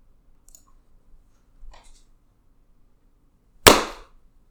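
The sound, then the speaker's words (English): A single sharp hand clap snaps out alone and loud, preceded by a few faint ticks in near silence. “I usually try and have it where my hands are coming together into the clap when it switches to the number.”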